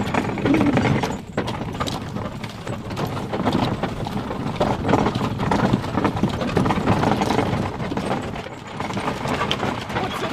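Steady clip-clop of two horses' hooves as they pull a freewheeling wheeled wagon near Mount Taranaki, a continuous rhythmic patter over rumbling, rattling noise.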